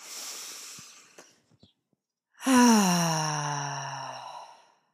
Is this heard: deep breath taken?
yes

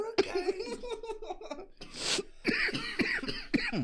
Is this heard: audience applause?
no

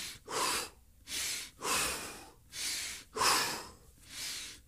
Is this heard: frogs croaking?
no

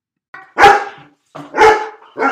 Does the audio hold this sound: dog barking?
yes

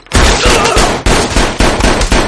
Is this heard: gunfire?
yes

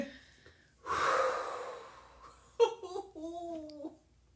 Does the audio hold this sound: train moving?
no

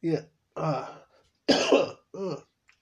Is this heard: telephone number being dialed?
no

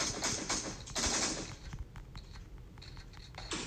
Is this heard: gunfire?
yes

